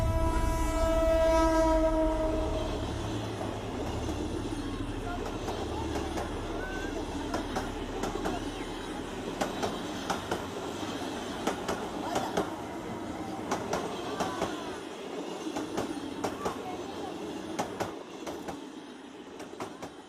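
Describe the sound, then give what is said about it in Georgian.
A train passes on railway tracks, opening with a loud sustained horn, then settling into a steady rumble with rhythmic clicks of wheels over rail joints that gradually fades. “ისინი ინსტინქტურად გრძნობენ, როდის და რომელი მხრიდან მოვა მატარებელი.”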